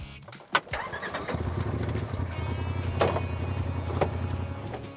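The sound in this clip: A UTV off-road vehicle engine starts on the Sand Mountain sand dunes, a sharp cranking burst followed by a steady, loud running rumble with a couple of brief surges later on. No one talks.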